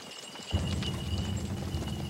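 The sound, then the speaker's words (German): Horse hooves clip-clopping as three riders advance on horseback: after a brief quiet start, a dense, steady patter of low thudding steps continues to the end, with no voices. “Dann reitet er mit 2 Gefolgsleuten Gratton entgegen und bietet ihm an, die heilige Pfeife mit ihm zu rauchen.”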